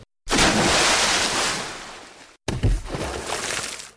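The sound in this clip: Sloshing, splashy water from someone paddling along on a table through sewer water. Two loud stretches of broad rushing noise are split by a short silent break.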